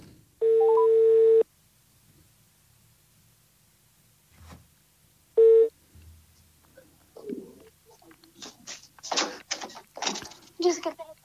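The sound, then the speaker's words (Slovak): A telephone call rings through on the line with a steady mid-pitched tone, first a long burst of about a second and then a short one after a pause. People then talk over the connection. “No, tak už ti volám, tak poď rýchlo.”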